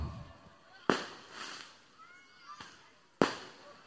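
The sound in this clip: Firecrackers going off in a few sharp, loud bangs spaced irregularly, with noisy crackling bursts and fainter pops between them.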